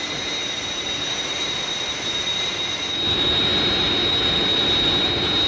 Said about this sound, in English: Say, look, there's another aircraft dead ahead of us.